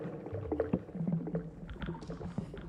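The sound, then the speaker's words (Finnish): Waves break on beach stones, a faint, low sloshing and gurgling wash with irregular soft knocks running throughout. “Aallot lyövät rantakiviin.”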